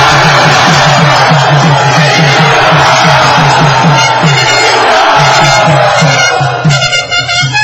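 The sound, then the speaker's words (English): A crowd at a religious gathering cheers loudly and enthusiastically to welcome a visiting swami. The shouting and whooping is continuous and dense, with a rhythmic pulse running underneath throughout. “Let us very loudly and enthusiastically, before he edits whatever I say, Let us loudly and enthusiastically welcome His Holiness Jayadwaita Swami Maharaj.”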